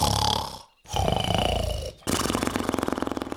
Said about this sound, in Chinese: 两个巨人又躺下去继续睡觉，没多久又开始打呼